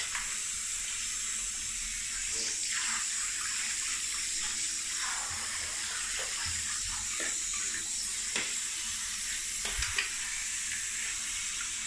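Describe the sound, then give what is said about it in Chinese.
Water streams from a tap or shower head to rinse soap suds off a pet's tail during a bath, a steady, faint hiss with no break and a few soft splashy clicks. “屁股抬起来，给你冲一下尾巴上面。”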